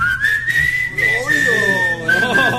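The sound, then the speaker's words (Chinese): Whistling carries the melody in a sweet Cantonese pop song cover, a bright, sustained tone that wavers slightly off pitch above the backing music. “但我觉得他这个口哨吹得不好，有点不准”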